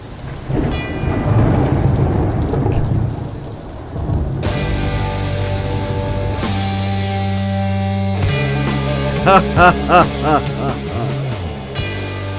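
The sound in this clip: Rain and low rolling thunder open a song: a dense, steady hiss with deep rumble fills the first four seconds, then sustained music enters and carries on to the end.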